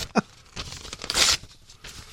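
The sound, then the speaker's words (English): Something is ripped up by hand in a sharp, quick tear, followed by a longer, harsh rasping rip and a little faint rustling. “And I'm not done ripping this up yet.”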